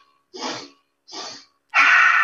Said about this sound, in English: you're breathing in through your nose, which is a breath that we would do as adults, right? So you breathe in three times, bringing your arms up.